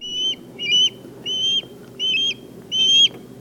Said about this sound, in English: And that is the sound of an osprey provided by the Cornell Lab of Ornithology